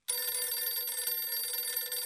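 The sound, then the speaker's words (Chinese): A telephone bell rings without a break for about two seconds. The trill is bright, metallic and steady, with no voices. “那好吧，我就打个电话试试。 说完，刘厚同便给傅作义挂了个电话。”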